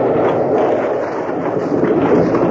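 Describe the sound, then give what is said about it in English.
A gunpowder keg is set off in a mine tunnel, producing a loud, continuous roaring rumble that stays heavy and dense throughout without a break. “shoot off the keg of powder”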